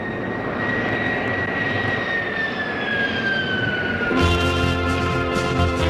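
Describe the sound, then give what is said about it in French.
An airplane takes off with a loud, steady jet-engine roar, and a high whine slowly falls in pitch through the noise. Near the end the engine tone shifts to a harsher, buzzing hum. “ça y est, le décollage est effectué”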